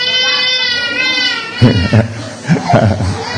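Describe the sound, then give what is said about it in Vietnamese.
An infant cries in a high, wavering wail at the start, then a few shorter sobbing bursts mix with a voice speaking. “Đó, tội nghiệp đứa bé chưa. Nhưng mà nó đâu có sao đâu, mẹ nó vẫn ấm nó mà. Mẹ nó đâu có bỏ nó. Con cứ bế bé đi đi con, không sao đâu. Nó khóc thì là nó khóc thôi.”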